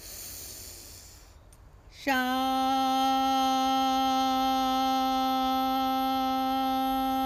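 A deep inhale during a guided breathing meditation: soft airy breath noise for about two seconds, then a brief pause and a loud, steady pitched tone rich in overtones that holds unbroken to the end.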